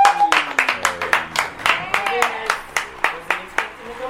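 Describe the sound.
Audience clapping at a live event, many sharp, evenly spaced claps in a steady rhythm, with a tonal sound running underneath.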